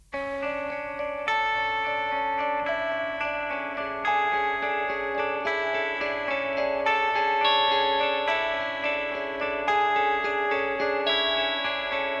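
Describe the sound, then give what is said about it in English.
Electric guitar panned to the left of a recording, playing a repeating figure in 5/8 time with bright, sustained notes shaped by chorus and echo effects, steady and even throughout. “So let's just focus on that electric guitar part over on the left.”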